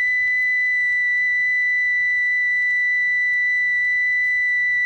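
A steady electronic test tone holds one bright, high pitch without a break for the whole stretch, clean and unwavering, with no voices over it.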